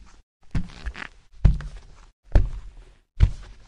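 Footsteps of a person heading upstairs to a room: four heavy, evenly spaced thuds with short gaps of quiet between them.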